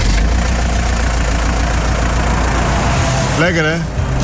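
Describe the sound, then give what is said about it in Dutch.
Engines running with a steady, loud, droning rumble that holds level throughout, with no clear rise in speed; a short voice breaks in near the end. “gewoon starten die handel, die motoren en dan gaat het gewoon vol gas eraan”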